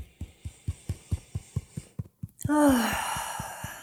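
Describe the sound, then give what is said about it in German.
A deep breath drawn in and let out through the nose, heard as a long soft rush of air over steady, rapid rhythmic tapping on the chest below the collarbone that continues throughout. “Atme hier einmal tief durch die Nase ein und aus.”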